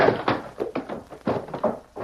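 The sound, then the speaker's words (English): A chair is thrown and a man runs out the door, heard as a quick, uneven series of many heavy thumps and knocks with no talking. “You let him throw that chair at you and run out the door.”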